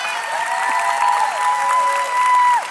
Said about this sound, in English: can you help me by putting your hands together and welcoming Mr. Tim McCall today to the stage?